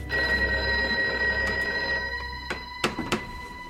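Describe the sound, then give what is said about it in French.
A telephone rings in the Palais de Villamejor during a night-time emergency: a loud, sustained electric bell tone with a rich, buzzing timbre, ending and followed by a few sharp knocks. “Palais de Villamejor, le téléphone sonne.”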